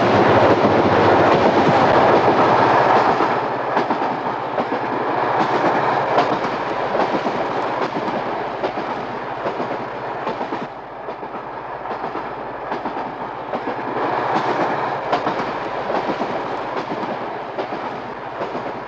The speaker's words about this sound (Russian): Едет в областной электричке, дремлет.